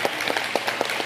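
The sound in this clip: Audience applause at a gathering, thanking two volunteers who handled the food and nursery: a short burst of scattered clapping with a few sharper claps standing out.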